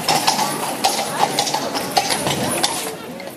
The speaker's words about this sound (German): Oh, die Kutsche, die fuhr heute schon über die Ostwestbrücke. Oha. Klock, klock, klock hat er gemacht.